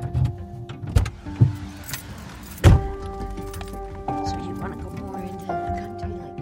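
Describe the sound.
Interior sounds of a van being driven to the airport: a steady low rumble with a few sharp thumps and knocks, and faint indistinct voices.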